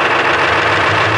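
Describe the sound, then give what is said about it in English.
A new commercial airliner's engine gives a loud, steady roar, a dense continuous drone with no breaks or changes over about a second. “A sleek, new commercial airliner powered by Valhalla for Thunderbolt aviation fuel.”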